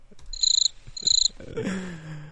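Crickets chirp, played as a joke, in two short bursts of rapid, high-pitched trilling pulses, followed by a quieter, lower sound.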